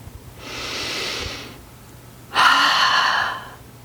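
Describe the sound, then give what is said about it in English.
A slow, deep exhale through a wide-open mouth, like fogging up a mirror, demonstrated as a breathing technique: a softer airy breath, a pause, then a louder, longer hissing exhale with a hollow, throaty tone. “start by taking a deep breath and slowly exhale with a wide mouth. Almost like you're fogging up a mirror. Let's try it now.”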